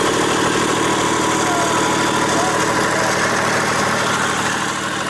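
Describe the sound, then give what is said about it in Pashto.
Small generators running to power shops in Lashkar Gah: a continuous, loud engine drone with a vibrating, idling rumble that stays steady throughout. “د برېښنا د ریاست مخ ته یو لوی جنراتور دغه کسانو غږ ورکړی دی چې دلته پلاستیک کراچۍ کې واړه توکي خرڅوي”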